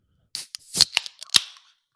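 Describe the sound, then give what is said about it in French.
A beer bottle is opened. A few sharp clicks and pops from the cap come with brief hissy bursts, fairly loud and with no other sound. “Mais avant ça, on va s'ouvrir une petite bière.”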